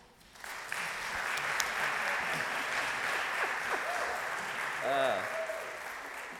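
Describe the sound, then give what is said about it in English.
Audience applause at a church service welcomes new worship associates: sustained, steady clapping from an audience, with a voice briefly rising over it near the end. “ask you to put your hands together and welcome them too.”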